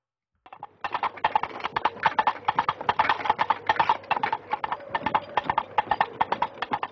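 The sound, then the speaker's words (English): Clip-clop hoofbeats imitating King Arthur approaching a castle in Monty Python: a brisk, steady trotting rhythm of many hollow knocks that begins after a brief silence and carries on alone throughout. “you'll recognize the sound you're hearing as that of King Arthur approaching a castle, seeking out knights to join him in his quest for the Holy Grail”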